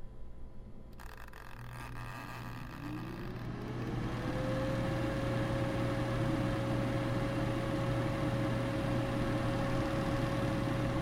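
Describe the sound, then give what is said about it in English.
An electric deep fryer preheats with a loud continuous hum, joined by a whine that rises in pitch over a couple of seconds and then holds steady as a constant tone. “about 15 minutes or so on the timer because I want to preheat this deep fryer.”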